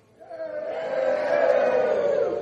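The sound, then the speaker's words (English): A single voice imitates a crowd cheering a tightrope walker's crossing, a drawn-out, open-mouthed roar that swells in after a short silence and holds steadily for about two seconds. “So Blondin makes it across, and the crowd goes,”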